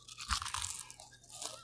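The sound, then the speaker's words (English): Dry, crisp crunching of Cheez-It cheese crackers being chewed. Many quick crackly bites follow one another at a moderate level, with no talk. “welcome to my ASMR podcast. Today, I have Cheez-Its.”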